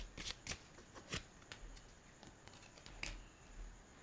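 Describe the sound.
Playing cards shuffled for a spirit card reading: a faint run of quick flicks and snappy riffles, some sharper than others, with no talk.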